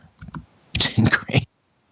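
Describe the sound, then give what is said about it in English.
Someone types a message on a computer keyboard: a few short bursts of clicking keys, two quick taps followed after a pause by a denser run of keystrokes, then silence. “I'm just going to type him a message.”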